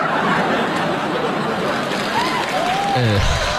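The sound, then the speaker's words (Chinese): Applause from a crowd, a dense steady clatter of clapping mixed with scattered chuckles and laughter, with a voice briefly audible near the end. “掌声送给这位社会人啊！”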